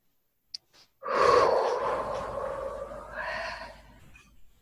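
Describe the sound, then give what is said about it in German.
A deep breath is drawn in during a calm relaxation exercise. It is a long, airy, breathy inhale lasting a couple of seconds, trailing into a softer breathy sound. “Und so einen ganz schönen, tiefen Atemzug nehmen von so einer ganz reinen Luft”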